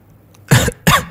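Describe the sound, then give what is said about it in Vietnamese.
Two sharp, loud coughs from a weakened, injured man, each a harsh burst, separated by a short pause, with no talk around them. “Lúc này, những tiếng ho liên tục vang lên.”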